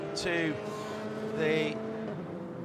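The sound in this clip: A race car engine drones steadily as the yellow JDC Miller number five sports car enters pit lane during a WeatherTech Championship race at Laguna Seca, a buzzing harmonic tone under a commentator's voice.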